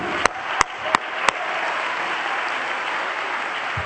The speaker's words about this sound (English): And you all ought to be clapping your hands unto the Lord right now